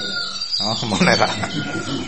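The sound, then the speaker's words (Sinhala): A peacock's call, a loud, harsh cry with bright tonal bands, rises over a dense bed of other sound and holds steady for about two seconds. “මොනර අපිට හරියට උදව් කරනවා නේද? මොනර”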